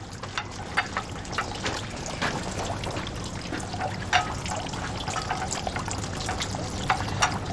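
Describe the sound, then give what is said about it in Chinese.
Running water from a tap splashes steadily as fruit is washed under it, a dense, even gush broken by a few light knocks and clatters. “行，你们先进去，我洗点水果进去。”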